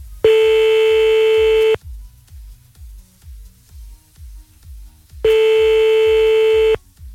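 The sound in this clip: A telephone rings on the line while calling someone back: two long, steady mid-pitched tones of about one and a half seconds each, separated by a long pause, over a faint low pulsing.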